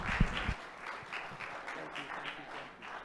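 Audience applause welcoming a preacher to the stage, a moderate wash of clapping that holds fairly evenly throughout, with a brief low thump near the start.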